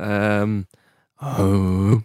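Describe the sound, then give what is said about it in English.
A voice imitates Matthew McConaughey's rhythmic breathing from The Wolf of Wall Street as two sustained, low, voiced groans, the second slightly longer, separated by a brief pause. “What's that? The breathing from Wolf of Wall Street. Do a McConaughey.”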